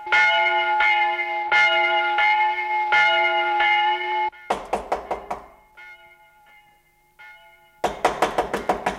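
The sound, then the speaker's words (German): Knocking on a door: two bursts of quick, hard knocks, the first cutting off a run of loud ringing church bell tones, then a brief pause with faint bell tones before the second burst of knocks. “Wer ist das, der da klopft?”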